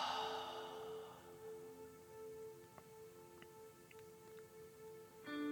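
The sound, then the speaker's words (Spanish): A slow, soft exhale through the mouth during a guided breathing exercise: a breathy hiss that fades over about a second, above steady, sustained background tones. “Inhala por la nariz. Y suelta todo al exhalar por la boca.”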